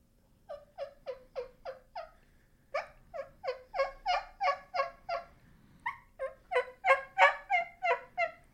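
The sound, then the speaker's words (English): Soft turkey hen yelps made with a turkey call: many short, raspy notes in three quick runs, the later runs a little louder than the first. “when you're talking about just a regular content yelp, they can be super super soft.”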